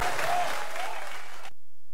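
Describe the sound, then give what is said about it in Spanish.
Applause for a norteño music singer: an audience claps steadily for about a second and a half, then the sound cuts off abruptly into silence. “Un aplauso para despedir a otro grande de la música norteña”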